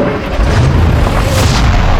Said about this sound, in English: Explosions erupted within the mansion, windows blowing apart at both ends of the building.